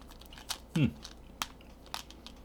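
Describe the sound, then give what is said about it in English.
A small plastic dispenser of little chocolate pellets is opened, giving a few short, faint crinkles and clicks spread out over a couple of seconds, with a brief murmur of voice. “And they're kind of like in a little dispenser. We'll open that up and have one of those first.”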